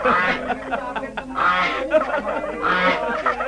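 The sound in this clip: Goose honking in a children's spoken story, a few nasal, brassy honks that repeat in bursts, mixed with voices.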